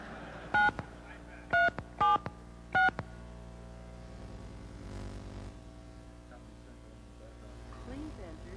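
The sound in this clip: Touch-tone dialing for a toll-free number: four short, clear keypad beeps in an uneven rhythm, followed by a faint low electrical hum.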